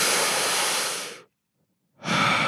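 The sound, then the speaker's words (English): A person takes a deep breath, a long airy inhale for over a second that cuts off into silence, followed by the start of another breathy rush. “I'm going to take a deep breath for Miss Melissa”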